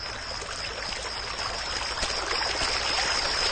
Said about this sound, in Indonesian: Hanya terdengar saja air mengalir dari sungai itu.